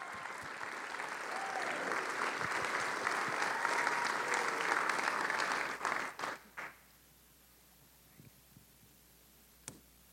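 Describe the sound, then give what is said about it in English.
Audience applause welcomes a speaker to the stage at a worship gathering. Dense, loud clapping runs for about six seconds, breaks into a few last claps and fades, then near-silence follows with a couple of faint clicks. “Yeah, let's give him a hand.”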